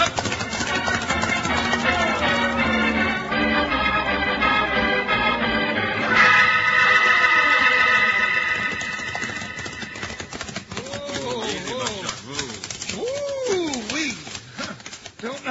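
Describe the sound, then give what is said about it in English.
A thundering stampede of thousands of buffalo charging up a valley: a loud, dense, rapid clatter of hoofbeats that swells and continues without a break, with shouting voices heard over it near the end. “It's buffalo, Jingles, heading up the valley. Come on, let's go. Stampeding buffalo. Thousands of them coming right at us. They'll be on us in any second.”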